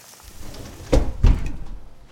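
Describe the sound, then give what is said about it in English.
An oven door is opened and a New York–style pizza is slid onto a ripping-hot 500-degree baking stone. Two short, fairly loud knocks sound close together over a quiet background, with no talk. “You just open up that oven, you're gonna slide it onto that. To that hot stone.”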